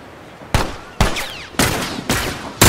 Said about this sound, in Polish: Kto do mnie to jeszcze strzela?